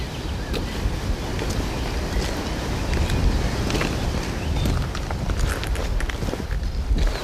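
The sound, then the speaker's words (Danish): Footsteps walking through a Danish beech forest: a steady run of soft, crunching steps over constant rushing wind noise, with no talk. “Lige nu går vi jo i en, i en skov. Altså det er sådan en, er sådan en bøgeskov, ikke?”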